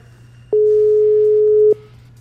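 A ringback tone sounds on an outgoing phone call: one steady, loud, mid-pitched tone that lasts just over a second and then stops, over a faint low hum.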